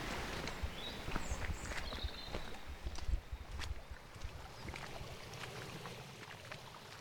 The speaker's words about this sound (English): Are we going to walk to the beach? Yes, we are. We're going to walk down to Porthtown Beach